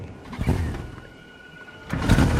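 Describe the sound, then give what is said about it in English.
Outboard boat motor being started by pulling its cord: a short rough burst, a quiet pause, then a louder, fuller burst of sound at the end. “He steps in the boat with the motor and pulls the cord.”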